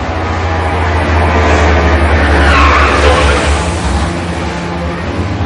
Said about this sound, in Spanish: Fuera, el camión de mudanzas llega al edificio a la vez que un coche gris.